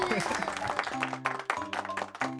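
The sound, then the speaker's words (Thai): Quiet applause from an audience for a child's drawing of a trip to the sea at a children's art session, scattered claps mixed with voices talking over and between them. “เอาปรบมือให้น้องข้าวหอมหน่อยครับ”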